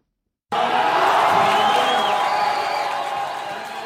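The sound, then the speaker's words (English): A crowd of hundreds cheers at a local youth football match in Juba, South Sudan, between the Sunrise and Trustlink teams. A loud, sustained roar starts abruptly after half a second of silence, then gradually eases. “Hundreds of people cheered as Elizabeth from the Sunrise team dribbling the ball towards goalpost of Trustlink's football team.”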